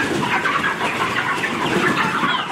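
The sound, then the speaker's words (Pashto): Broiler chickens fill a poultry farm housing about 15,000 birds in a village of Arghandab district, Kandahar, with a dense, continuous chatter of many overlapping clucks and calls at a steady loudness. “د کندهار د ارغنداب ولسوالۍ د میانجوی کلی د چرګانو د فارم کې دا مهال 15,000 غوښین چرګان تر روزنې لاندې دي.”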